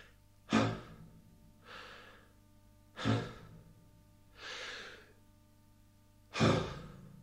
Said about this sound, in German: Blicke rasch zum Himmel auf und atme dreimal tief.